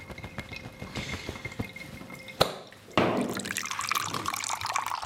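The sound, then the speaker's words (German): Running tap water rinsing lamb meat: a few scattered drips and a sharp click, then a steady rushing stream of water from about three seconds on, with no talk. “Das Fleisch wird allen erdenklichen Schutz brauchen. Spülen und abtrocknen.”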